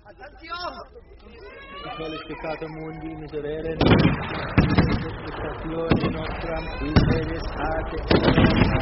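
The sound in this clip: Artillery fire from giant tanks booms out in a few heavy, sharp blasts at irregular intervals over a steady rumble, while people talk throughout.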